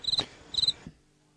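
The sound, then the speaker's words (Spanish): Cicada buzzing played as a sound effect: two short, high-pitched bursts of rapid, pulsing buzz, separated by a brief gap and ending in silence. “Suena la chicharra. La chicharra.”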